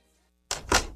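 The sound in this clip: A solid door's lock being locked makes two heavy, dull clunks in quick succession after silence, the second one louder.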